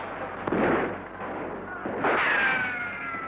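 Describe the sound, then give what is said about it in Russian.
Mortar fire during a wartime battle: two heavy booming blasts about a second and a half apart, each trailing off in a rumbling decay. “Наши минометы. Обидно будет, если своих накроют.”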